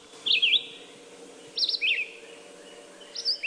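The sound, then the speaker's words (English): A red-eyed vireo sings several short, high, sweet warbled phrases separated by pauses over a faint, steady background. The phrases are clear and distinct, and no voices are heard. “That's the song of the red-eyed vireo.”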